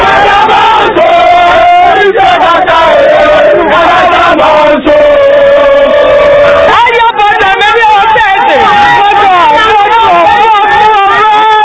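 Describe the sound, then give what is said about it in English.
Enthusiastic supporters, including bread sellers, loudly cheer and shout to welcome President Mills as he inspects the completed Nsawam bypass, a continuous, dense crowd roar with raised voices throughout. “President Mills was welcomed by enthusiastic supporters, including bread sellers, when he inspected the completed Nsawam bypass.”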